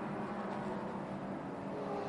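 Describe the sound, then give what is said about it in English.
GS class race cars stream past the start-finish line in a continuous, even roar of engines, fairly faint and with no talk over it. “the GS field stream past the Ford Racing Global Broadcast Centre, the start-finish line, to start another lap there”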